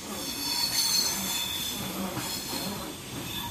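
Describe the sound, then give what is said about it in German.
A London Underground train running on rails, with a steady loud rumble overlaid by high metallic wheel squeal throughout, no voices. “Wir reisen mit dem Zug an.”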